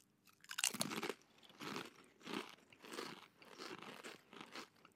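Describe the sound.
Someone eats Sørlandschips potato chips, biting and chewing in repeated crisp crunchy bursts with short pauses between them, fairly faint and without talk.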